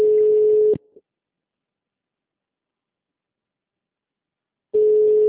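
Telephone call tone while dialing a client: a steady, low-pitched electronic beep ends after under a second, followed by about four seconds of silence before the same tone starts again.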